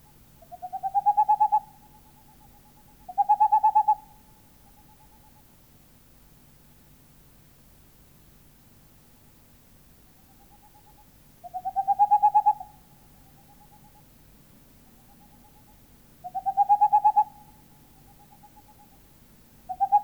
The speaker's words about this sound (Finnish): Helmi Pöllö.